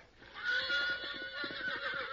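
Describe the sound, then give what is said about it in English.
A mean, hard-to-saddle horse neighs in one drawn-out whinny, a bright, wavering call that swells early and holds for about two seconds, fairly faint overall. “You might as well try to saddle the devil himself as put a hull on that critter. He's a mean one, all right.”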